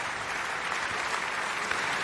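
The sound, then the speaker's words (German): Steady, dense applause from an opera audience in the Felsenreitschule for the singer of the title role, an even wash of many hands clapping with no pauses. “Das ist der Applaus für Georg Nigel, der hier die Titelrolle gesungen hat.”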